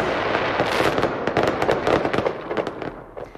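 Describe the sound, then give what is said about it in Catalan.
A fireworks display by the winning pyrotechnics company of an international fireworks contest at the Punta del Miracle: dense, continuous crackling and rapid popping bursts, loud and busy, thinning slightly toward the end. “La pirotècnia guanyadora del concurs internacional de focs ha estat l'encarregada de fer el castell de focs de la Punta del Miracle.”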